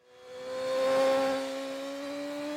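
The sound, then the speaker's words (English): A BMW S 1000 RR motorcycle ridden at the limit gives a whining engine note that swells to a peak midway. It then holds steady as its pitch slowly climbs, with no other sound. “I wish I could say that was me riding that double R on the limit, but it was Peter Hickman.”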